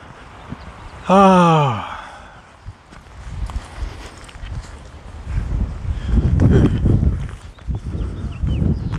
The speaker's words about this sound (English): I'm walking by the end of one of these streets and the wind is funneling down between the houses.